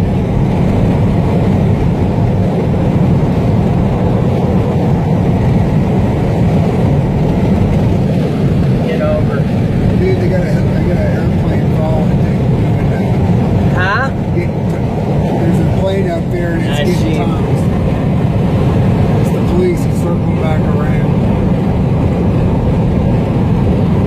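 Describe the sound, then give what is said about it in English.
A car drives along a road through canyon country, giving a steady, loud low rumble of road and engine noise that holds evenly for the whole stretch. “You drive. Here, I gotta drive. I'll go around this guy.”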